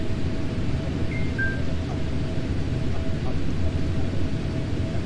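An airplane engine's exhaust drones as a steady, broad rumbling roar with a faint high whine, continuous and even in loudness from start to finish.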